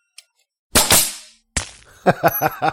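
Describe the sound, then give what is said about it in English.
An electric nail gun fires nails in a video game: a tiny click, then two sharp cracking shots with hissing tails, followed by a quick series of punchy thuds. “Look, it's one of those electric nail guns. I've always wondered if you could always shoot a nail out like a bullet.”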